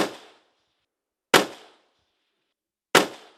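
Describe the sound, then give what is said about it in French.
Three sharp rifle shots fired on command at a shooting range during a timed series, each a loud crack with a quick decay into silence, spaced roughly one and a half seconds apart. “Pour une première série de 3 coups en 1 minute, tireur prêt, feu.”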